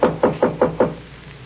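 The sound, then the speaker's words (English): Five firm knocks on a hotel room door, evenly spaced and equally loud, followed by a brief quiet stretch. “He knocked on the door.”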